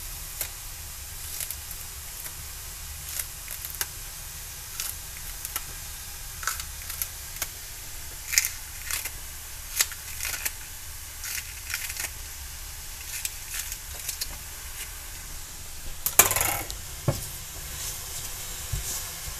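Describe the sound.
Kitchen scissors snip spring onions at an angle, making many soft, irregular clicks over a faint, steady hiss, with a slightly louder cluster of snips near the end.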